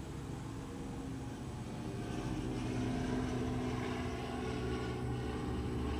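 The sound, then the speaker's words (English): A helicopter flies by with a faint, steady engine drone and rotor wash that swells slightly toward the middle and stays even to the end, with no voices. “I love when an airplane goes by. Oh shit, that wasn't an airplane, that's a helicopter.”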